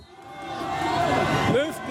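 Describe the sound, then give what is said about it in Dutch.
A crowd cheers in Longwy as Tadej Pogačar wins the Tour de France stage in a sprint finish and takes the yellow jersey, with a loud swelling roar and a voice speaking over it. “De opwinding in Longwy is voelbaar op het moment dat Tadej Pogačar daar over de finishstreep komt. Enorm gejuich na die ultieme sprint die hem ook meteen de gele trui oplevert.”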